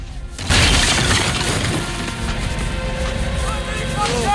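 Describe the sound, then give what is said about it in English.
French cannon fire a salvo at a fort's defences during an artillery battle. A sudden loud blast erupts about half a second in, followed by a sustained, heavy rumbling crash that stays loud to the end. “The French cannon respond, firing a salvo at the fort's defenses, killing several soldiers on the battlements.”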